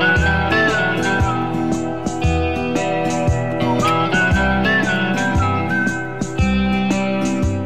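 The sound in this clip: A man whistles a tune in clear, bright notes that glide and waver in pitch. The melody runs steadily and fairly loud throughout, with no talk.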